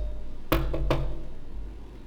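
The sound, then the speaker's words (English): Three sharp knocks strike a door in quick succession, rapping loudly over a low steady hum and then falling away into quiet. “You knock on a door.”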